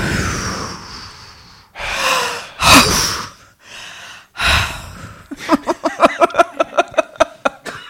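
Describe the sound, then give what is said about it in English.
Breathing through the mouth: a few loud, airy inhales and exhales, each in its own burst. A quick run of short, evenly spaced rhythmic pulses follows. “Try another breath through the mouth.”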